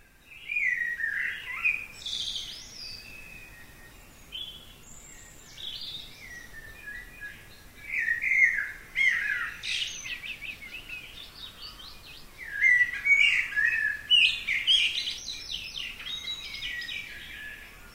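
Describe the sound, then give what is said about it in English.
A dawn chorus of birds in the Scottish Highlands: several birds sing and chirp in overlapping bursts of bright, high twittering phrases, swelling and easing with short lulls between, with no voices. “So maybe we can just have a short listen to some of a dawn chorus in the Scottish Highlands.”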